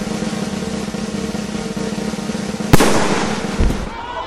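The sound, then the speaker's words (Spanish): A pistol shot from a Smith & Wesson .45-caliber handgun with a mother-of-pearl grip: one sharp, loud crack over steady background noise, followed about a second later by a weaker thud. “Como podía esperarse, el tiro fue fatal y levantó al ministro la tapa de los sesos.”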